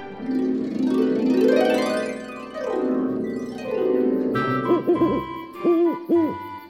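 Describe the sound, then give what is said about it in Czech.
Owl hooting at night outside a forest cabin window: a few short, wavering hoots in two brief clusters, following a stretch of soft music. “Takové zvuky, jaké ve městě bývají málokdy. Například houkání sovy nebo vytí kojotů.”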